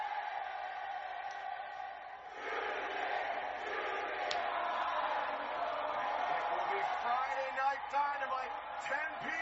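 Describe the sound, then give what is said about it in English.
Crowd at a wrestling event singing a song together, a dense, sustained roar of many voices that swells noticeably after about two seconds and stays loud to the end. “This is that crowd singing that song.”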